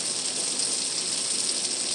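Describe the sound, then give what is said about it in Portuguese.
Steady rain falls as a dense, even hiss with no distinct drops or pauses, holding at a constant level throughout, with no voices. “Nossa, tava difícil pra nós lá, mas agora a chuva vai apagar esse fogo desgraçado.”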